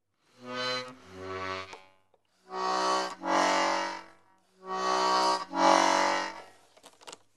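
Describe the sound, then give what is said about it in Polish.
Single-row hand accordion with two flap-style bass buttons: a couple of short reedy bass tones, then two long, full sustained chords as the bellows are pushed closed and then drawn open. “Harmonia ręczna jednorzędowa na dwa basy klapkowe, łopatkowe. Gram najpierw basy, najpierw ściągam miech, potem rozciągam.”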